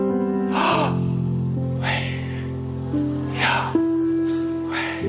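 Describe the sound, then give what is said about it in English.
Slow breathing in and out, a person inhaling and exhaling deeply. Four broad, airy breaths rise and fade at steady intervals over a continuous low sustained drone of tones. “imitates the natural act of breathing as you inhale and exhale. So this is how YHWH sounds like.”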